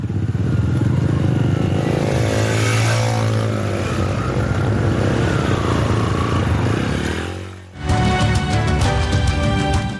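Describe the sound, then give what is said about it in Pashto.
125 cc motorcycles and a black 150 cc motorcycle ride one after another, making a loud, continuous engine drone that swells and fades as one passes. A sharper, buzzing engine note follows near the end. “د هر یو تن سره یو سل او 25 سی سی د سترو رنگونو موټر سایکل وي خو وسیم سره تور رنگ یو نیم سل سی سی موټر سایکل او وار په وار یو بل پس روان شو.”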